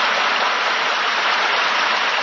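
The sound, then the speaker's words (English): Steady applause, a dense, even hiss of many hands clapping together, loud and unbroken with no individual claps standing out. “Yes, sir, I think Jimmy needs a lot of applause.”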